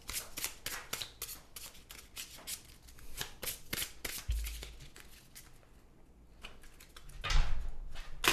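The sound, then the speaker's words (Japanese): A deck of playing cards is riffle shuffled: many rapid papery flicks in quick bursts, then a quiet pause and one more short burst, all fairly soft, with no talk. “so I will riffle the cards”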